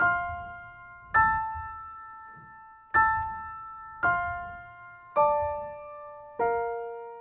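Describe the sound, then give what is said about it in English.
A B flat major arpeggio in Lydian mode rings out alone as six slow, evenly spaced notes, each with a crisp attack and a long, clear decaying tone. “So now my arpeggio sounds like this.”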